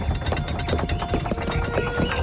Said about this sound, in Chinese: 吴国千夫长驾着马车驶了过来